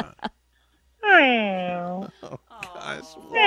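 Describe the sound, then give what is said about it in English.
A cat meows over a phone line: one drawn-out, tonal meow lasting about a second that sags in pitch toward its end, with brief voices talking just before and after it. “I should get Big Kitty come up to the phone and, like, start meowing to you.”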